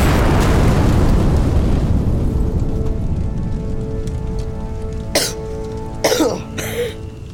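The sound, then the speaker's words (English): An explosion from a lit fuse blasting a hole in the ground: a loud, broad roaring blast that slowly dies away over several seconds, followed by a few brief, sharp bursts near the end. “We blasted a hole all the way to China.”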